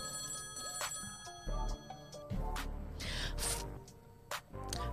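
A telephone rings with an incoming call, its ringtone sounding as repeated bright tones over a busy background of other sound.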